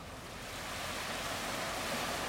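Ocean waves rolling in and out in the Bahamas: a steady, broad rushing wash of surf that swells slightly louder over a couple of seconds, with no voices.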